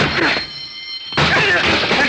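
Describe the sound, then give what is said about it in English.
A locked door is broken down: after a brief hush, one loud crashing impact bursts in, followed by sustained noisy clatter and scraping. “The door's locked. We got to break it down.”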